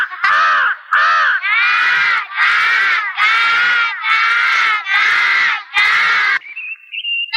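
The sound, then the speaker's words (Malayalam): A crow cawing in a film scene: eight loud, harsh, drawn-out caws in a steady rhythm, each separated by a short gap, then a faint, thin, high tone at the end. “അയ്യേ, മാഷിന്റെ ട്രൗസറിൽ കാക്ക തൂറി.”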